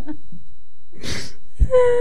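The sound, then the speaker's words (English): Someone blowing into a wide-mouth water bottle: a brief breathy rush of air, followed near the end by a short hollow tone at a steady pitch. “You're calling me pathetic and you're blowing into your water bottle making noises with it.”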